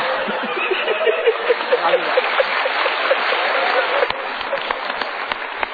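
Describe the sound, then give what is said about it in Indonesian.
A studio audience applauds a guest on a television talk show, a steady, dense patter of clapping that holds throughout without a break. “Yuk kita berikan tepuk tangan lagi untuk tamu kita.”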